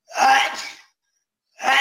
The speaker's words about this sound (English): Hold on one second, I have to sneeze.